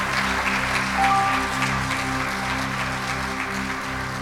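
A church audience applauds with dense, steady clapping that holds at an even loudness throughout.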